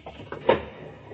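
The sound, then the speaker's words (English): A hidden wall panel slides open with a few short scraping, knocking sounds, the loudest a brief clunk midway, then a fainter rumbling drag that trails off. “You see, the wall opens easily”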